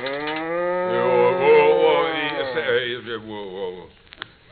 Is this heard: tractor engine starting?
no